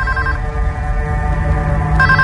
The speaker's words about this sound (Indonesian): selalu saja ada telepon berbunyi. Dan tidak pernah ada yang mau mengangkatnya.